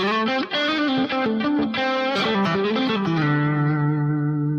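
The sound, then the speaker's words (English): Electric guitar on the neck pickup through an effects preset with distortion, playing a quick run of notes before settling onto a low note that rings out and sustains to the end. “Now, it sounds different than my Ibanez did. And for me, it doesn't have quite the same sound on this preset that I've been using before in some of the other live sessions. If I go to the neck position,”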